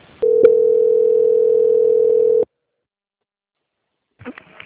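A steady telephone line tone plays while a call is transferred between departments: one loud unbroken hum for about two seconds that cuts off abruptly into silence, followed by a few brief faint noises.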